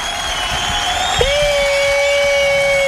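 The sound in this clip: Studio audience applause and cheering for a returning guest, a loud, steady wash of clapping and cheers, with a sustained high tone joining partway through.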